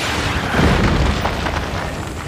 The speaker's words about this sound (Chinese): 请看全球首枚纳米虫弹头试射的实况，每个弹头都装有700万只纳米虫